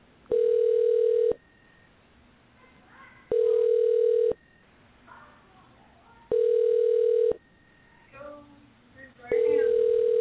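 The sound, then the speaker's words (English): Telephone ringing tone on an outgoing call: four long, steady, mid-pitched tones of about one second each repeat at even intervals, with faint murmuring voices in the gaps. “if you hear dialing, that dialing sound is us trying to get a hold of someone.”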